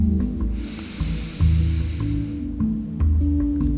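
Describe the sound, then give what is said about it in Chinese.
A person takes a deep second breath, a drawn-out airy inhale lasting a couple of seconds over soft background music with low tones. “第二次吸气”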